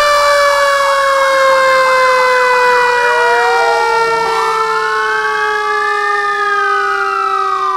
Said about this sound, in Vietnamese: vì giữa lúc chàng đang muốn quên hết, thì một hồi kèn rú lớn, tiếng kèn của xe chữa lửa.